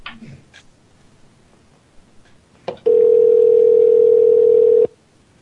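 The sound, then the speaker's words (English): A telephone is dialed and rings: a few faint clicks and taps, then a single loud, steady mid-pitched tone that holds for about two seconds and cuts off abruptly. “I'm dialing right now. You're ringing.”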